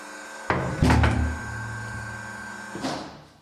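Heavy door of a decommissioned Cold War nuclear bunker, a narrow tiled shelter, being shut and locked: loud metallic clanks with a lingering resonant ring that slowly fades, then one more clunk a couple of seconds later.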